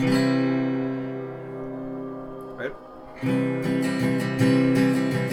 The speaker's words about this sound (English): So basically, this is what a C major chord sounds like.